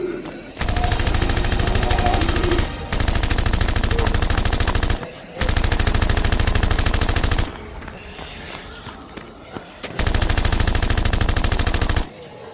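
Automatic gunfire rattles out in four long, sustained bursts of rapid shots. A quieter stretch with scattered noise separates the third and fourth bursts.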